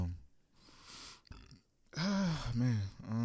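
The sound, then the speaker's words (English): A loud, drawn-out, low croaking burp with a wavering pitch, broken into a couple of parts, following quieter indistinct sounds. “Did you just burp?”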